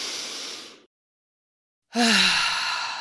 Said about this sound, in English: let's just take a big, nice, big, deep breath in together.